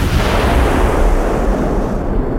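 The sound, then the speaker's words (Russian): Howitzer artillery fire as a shell flies overhead: a loud, continuous rushing roar with heavy low rumble throughout, its high hiss dropping away near the end. “Первый гаубичный снаряд, распарывая упругий воздух, прошел над головами.”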